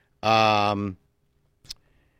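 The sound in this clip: A single sharp click on a computer snaps out of near silence, coming shortly after a brief, sustained burst of voice.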